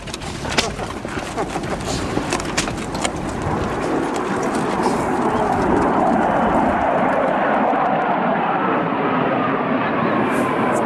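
Military Mirage jets pass over a film set in a nature reserve next to a military zone. The broad, rushing roar swells after a few seconds and then holds loud and steady to the end.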